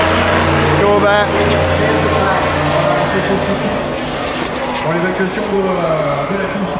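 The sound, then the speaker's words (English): Race cars roar past during a GT race: Porsche 911s, Corvettes, an Aston Martin and Ferraris. Their loud, overlapping engine notes swell and shift in pitch as the cars go by, with voices talking over them. “Porsche 911s. Corvettes. Aston. So quiet. 911. Ferrari. Ferrari.”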